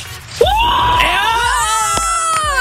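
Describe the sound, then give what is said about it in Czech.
A man lets out a long, loud joyful scream to celebrate winning an electric scooter. One sustained high-pitched yell holds steadily for about two seconds. “Pokaž, jakou máš radost, zakřič!”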